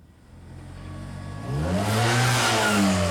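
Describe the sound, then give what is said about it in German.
A motorcycle engine revs and rides off: a low idle builds into a loud, climbing engine note that jumps in volume midway and holds a strong, steady roar to the end, with no voices. “Der soll sich auf sein Motorrad setzen und losfahren.”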